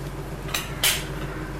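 Plates and dishes handled during a child's pretend play give two brief clattering clinks over a steady low background hum.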